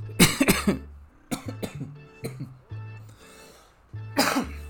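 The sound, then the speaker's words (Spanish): A person has a short coughing fit, with several sharp, harsh coughs that come in quick clusters separated by brief pauses. “me dio un ataquecito de tos”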